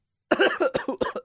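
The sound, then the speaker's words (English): Harsh, rapid coughing as someone chokes on their own breath, with several sharp bursts in quick succession that start abruptly after a moment of silence. “As I choke on my own breath. You all right there?”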